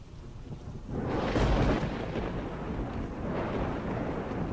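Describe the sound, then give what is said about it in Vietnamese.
Thunder crashes from a lightning strike into a yard during torrential rain. Steady rain hisses throughout, then a loud rumbling crash breaks in and rolls on, fading slightly but lingering as a low roar under the downpour. “trời mưa xối xả, sấm sét thỉnh thoảng đì đùng vang lên. Bất giác một ánh sáng lập lòe, một tia sét sáng rực trời, tạo thành một cái dây loằng ngoằng giáng thẳng xuống chỗ sân của nhà bà Đục”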